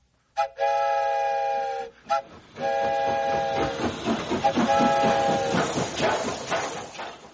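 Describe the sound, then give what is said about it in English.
A toy train whistle is blown: a long chord-like blast, a quick short toot, then another steady blast, followed by a run of rhythmic chugging pulses. “And I'll leave the whistle in your hands, too.”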